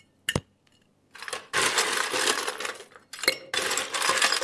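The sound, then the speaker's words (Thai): Ice cubes are scooped into a glass for a drink until it is about three-quarters full. A single bright clink comes first, then two long runs of rattling, clinking clatter. “ปริมาณของการใส่น้ําแข็งครับเช่นเดียวกันครับเราจะต้องใส่น้ําแข็งให้อยู่ที่ประมาณ3/4คือให้เยอะไว้ก่อนในลักษณะนี้ครับ”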